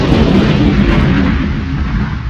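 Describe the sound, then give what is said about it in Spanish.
A spaceship explosion sound effect from a radio comedy: a loud, sustained rumbling blast with a heavy low roar that holds steady and eases slightly toward the end. “Nave a punto de explotar.”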